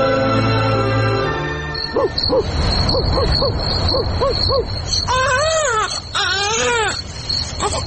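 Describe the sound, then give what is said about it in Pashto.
An infant cries loudly in a drama, the baby seemingly healthy yet stricken by an unknown ailment; short rhythmic sobbing cries give way to longer, strained wails. “ماشوم خو مغزه را وخړل، دا ولې نغلی کوي؟”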